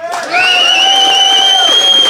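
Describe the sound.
An audience applauds and cheers in response, a loud, continuous wash of crowd noise. A high, sustained whoop-like tone carries over the top.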